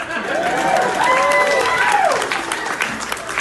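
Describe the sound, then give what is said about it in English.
Crowd applause at a stand-up comedy show, a dense steady wash of clapping with vocal whoops curving above it, loud for about two seconds before thinning into scattered claps. “By the way, did you know I'm 53? Please clap.”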